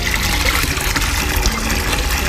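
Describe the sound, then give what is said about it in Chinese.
Aged Chinese vinegar pours in a continuous gushing stream, a steady splashing liquid hiss that holds evenly throughout. “小乐，你仔细听听这个醋落下去的声音。”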